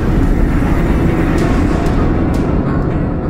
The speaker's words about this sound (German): der Zug raste vorüber